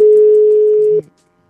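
A telephone ringback tone on an outgoing call: one steady, loud, mid-pitched tone that lasts about a second and then cuts off into silence.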